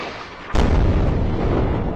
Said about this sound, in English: Another huge explosion in Gaza.